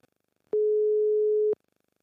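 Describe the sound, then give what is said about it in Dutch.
Ringback tone of an outgoing telephone call: a single steady, pure mid-pitched beep lasting about one second, with silence before and after. “Maar, hey, zullen we maar gaan bellen? We gaan hem bellen.”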